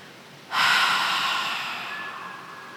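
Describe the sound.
A person lets out a single long, deep exhale: a breathy rush that starts abruptly and slowly fades over about two seconds, with no talk.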